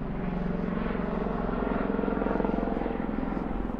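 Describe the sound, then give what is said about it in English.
Low-flying helicopter passing overhead, a steady, loud droning rumble with a fast, rhythmic rotor pulse that holds at an even level throughout. “So that is a helicopter that you can hear above. That is a low-flying helicopter.”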